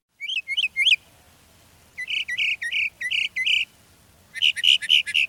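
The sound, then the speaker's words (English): A mockingbird, the Texas state bird, sings bright chirping notes in three repeated phrases: three quick notes, then a run of about five, and after a pause another run of about five. A soft insect-like buzz runs low underneath. “That is the sound of a mockingbird, the state bird of Texas.”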